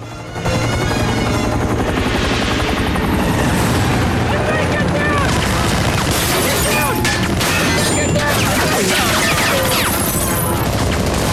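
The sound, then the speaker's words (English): A military helicopter carrying masked troops rises over the parapet of a bridge: a loud, continuous rotor roar runs throughout, with crashes and bursts of dense battle noise layered on top. “Behind him, rising up over the parapet of the bridge, appears a military helicopter carrying a payload of masked troops.”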